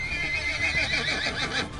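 A horse neighs as its rider pulls back on the reins: one long, loud whinny with a wavering, quavering pitch that runs for nearly two seconds.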